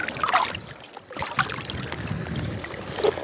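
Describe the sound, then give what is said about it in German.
Rain starts to fall outdoors in Iceland, a steady, crackling patter with small irregular swells and gusty washes throughout. No voices are heard. “jetzt fängt es richtig an zu regnen, so eine Scheiße”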